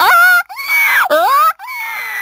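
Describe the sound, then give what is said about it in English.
A human voice imitates the call of a female forker monkey in heat: four loud, wavering shrieks with sliding pitch, some dipping and then climbing, separated by brief breaks. “But take a forker monkey from the jungles of the Philippines. When she's on heat, her behind sticks up and glows bright red and she makes a sound a bit like this.”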